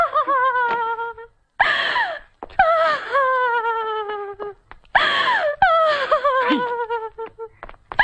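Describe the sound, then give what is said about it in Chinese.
A woman cries and wails loudly during a family quarrel at home, in long, high, quavering sobs that rise and break, with gasping breaths in the short gaps between them. “你看你在这儿有哭有闹的，叫外人听见了多不好。”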